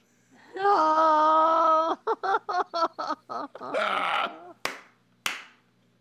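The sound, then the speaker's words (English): An audience groans at a bad joke: a long, drawn-out moaning voice is followed by choppy, rhythmic laughing bursts, a rougher noisy groan and two sharp clicks. “Oh, I got the groan.”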